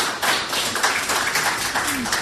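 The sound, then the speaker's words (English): An audience applauds a contestant on a stage quiz show: dense, steady clapping with no clear break. “Big round of applause for Steve.”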